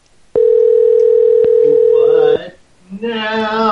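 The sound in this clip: A telephone ringing tone sounds as a single steady, even electronic tone lasting about two seconds, then stops and a person starts talking.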